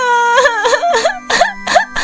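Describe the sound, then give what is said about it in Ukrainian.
Voice imitating crying for a bunny character in a children's choir story. A string of loud, high, wavering sobbing wails comes in short repeated pulses, with no talk over them. “Стоп! Будь ласка, не починай знову плакати, тому що ми тільки-но дісталися найголовнішого.”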